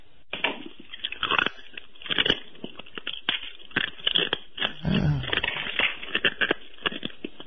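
Food being bitten and chewed, with many irregular crunchy bites and wet chewing sounds that come in quick bursts, fairly close and crisp, with no talk.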